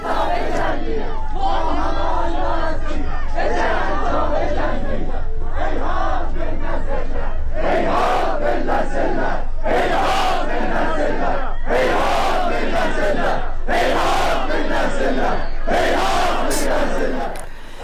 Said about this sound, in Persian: شعارهای ترکی سر میدن در حمایت از کردستان، در حمایت از بلوچستان، و یکی از شعارهایی که سر میدن حقوق برای مزدور، مزدور برای کشتن هست. ما از تبریز هم صدا داریم.